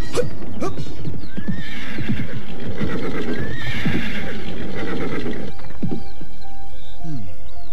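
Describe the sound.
Horses neigh loudly in long, wavering whinnies over a busy patter of clip-clopping hooves after a night of riding. Several neighs overlap, and the hoofbeats continue throughout.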